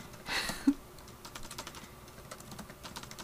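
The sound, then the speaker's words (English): Typing on a computer keyboard to search for song lyrics: many quick, soft key clicks in an irregular patter, faint overall, with one sharper click standing out near the start. “So we're gonna type in family vacation lyrics.”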